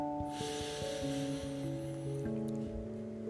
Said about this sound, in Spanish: Voy a inhalar profundo por nariz.